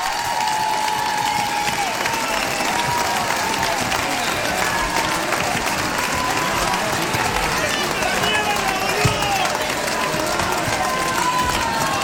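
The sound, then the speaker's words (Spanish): An audience applauds in a dense, continuous wash of clapping mixed with crowd noise and voices, holding steady and fairly loud from start to finish. “¡Aplauso para ellos!”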